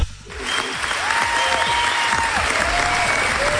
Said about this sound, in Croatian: Evo, dobili ste i pljesak od naše tehnike.